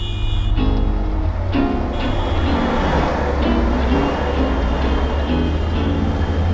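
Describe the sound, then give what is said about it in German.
Trains at the Warschauer Straße S-Bahn and U-Bahn station in Berlin make a steady, loud low rumble with a droning tonal hum, holding even in level throughout. “S- und U-Bahnhof Warschauer Straße. Das ist Berlin.”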